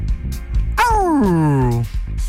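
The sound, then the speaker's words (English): A dog gives one drawn-out yelping cry that slides steadily down in pitch, with softer noises before and after it. “A little bit of a doggy moment right there.”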